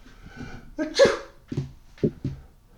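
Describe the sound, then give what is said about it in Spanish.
A few sharp sneezes attributed to a cat with a very red nose. They come as short, breathy bursts separated by brief pauses, with no words spoken. “Siendo conocida entonces como la gata que estornuda con la nariz muy roja.”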